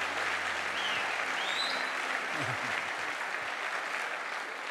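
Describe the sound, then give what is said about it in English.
A church audience in Pretoria applauds to welcome guest speaker Prophet Ed Traut, a steady, even roar of clapping holding at one level throughout. “Would you give a hand of welcome, please?”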